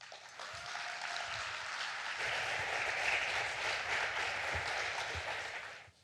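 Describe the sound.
Audience applause welcoming a speaker at Salem Fields, the president of a theological seminary in Manila: a steady, dense wash of clapping that holds for about six seconds and then fades at the end.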